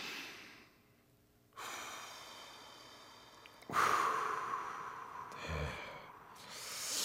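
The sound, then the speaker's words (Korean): Slow deep breaths for a relaxation exercise: a long inhale, a pause, then a longer exhale, each breath a soft airy rush with quiet gaps between and no talk. “자, 4초간 숨을 들이마시고 2초간 참았다가 6초간 길게 내뱉기.”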